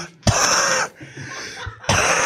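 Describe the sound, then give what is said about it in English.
Harsh, raspy coughing comes in two loud sustained bursts with a quieter rasping stretch between them, a human voice imitating a cockroach coughing and gagging. “cough, cough, gag, gag”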